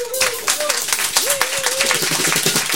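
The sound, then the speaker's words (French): A studio audience applauds at a live music performance in a radio studio. The clapping is dense and steady, with a voice speaking over it throughout. “je vous demanderai d'applaudir ici en studio et à la maison, si ça vous tente, Danny Thériault à la basse.”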